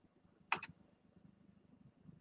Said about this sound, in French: Donc sur, le, sur la ligne lien de partage, je clique sur le plus.